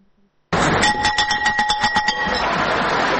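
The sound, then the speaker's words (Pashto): A school bell rung at the opening ceremony of a new school year starts abruptly after a brief quiet, giving a loud, rapid rattling ring with clear tones that runs for over a second, then gives way to broad noise. “ولسمشر محمد اشرف غنی هیله وښوده چې د ښوونځي دغه زنګ به د هوساینې، ثبات او خوځښت زنګ وي”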